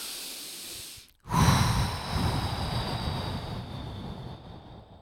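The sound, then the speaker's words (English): A single deep breath, a loud breathy rush that starts abruptly after a brief silence and then trails off slowly over several seconds, with no talking. “I'm going to take a breath.”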